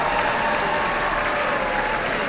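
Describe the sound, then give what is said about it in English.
Audience applause at a concert after a trumpet solo by a local musician, a dense, even roar of clapping that holds steadily throughout with no talk over it. “And the trumpet solo performed by local musician Thomas Eves. Keep the applause going.”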